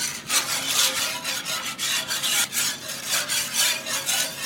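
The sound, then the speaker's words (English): A whisk scrapes browned meat bits from a pan bottom into milk gravy, making loud, rhythmic rasping strokes that repeat throughout with no talk. “That sound you hear are the little bits of flavor that were in the bottom of the pan after I cooked the meat. And that's what makes the gravy delicious. So you want to scrape all of that up so it becomes part of the gravy.”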